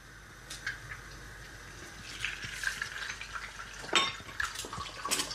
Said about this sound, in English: Second egg goes in. Oh yeah. And you can hear that really nice kind of crispy crackling sound.